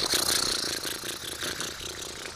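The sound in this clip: A vehicle engine runs with a rough mid-pitched rumble and steady rattling as the car drives off, staying fairly loud with slight surges in level.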